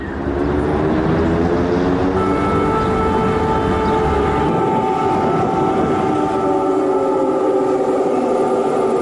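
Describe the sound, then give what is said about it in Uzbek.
Air raid siren wailing over Kyiv: a loud, sustained, steady tone with layered harmonic bands that waver slightly, held continuously over a broad rumbling noise bed without pause. “Kiyevda sirena ovozini birinchi marta kutilmaganda eshitganimda birdan meni vahima bosdi.”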